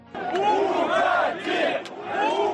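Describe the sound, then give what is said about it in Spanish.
Workers booing their leader Lukashenko in public: a dense, loud crowd jeer with sustained, wavering voiced tones, continuous throughout without pause. “Trabajadores abucheando al líder hasta ahora indiscutible y además en público”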